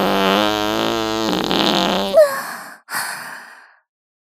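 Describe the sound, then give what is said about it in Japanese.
An older sister performs a fart trick: a buzzy, tonal fart rumbles for about two seconds and then turns raspy. It is followed by two short, breathy, sigh-like puffs, with a brief burst right at the end. “どう？すごいでしょ、お姉ちゃんのおなら芸。”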